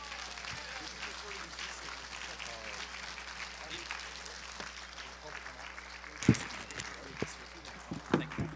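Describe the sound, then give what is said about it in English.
Church audience at Pacific Baptist applauding to welcome a guest speaker: steady, dense clapping throughout, mixed with voices and a couple of sharper bursts toward the end. “Why don't we give him a warm Pacific Baptist welcome.”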